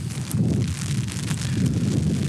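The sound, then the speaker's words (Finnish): Wind blows outdoors against a broken umbrella, a continuous rough, rushing buffet of gusts with low rumbling that stays fairly loud throughout. “Oho, täällä tuulee ja tää rikkinäinen sateenvarjo pullistelee.”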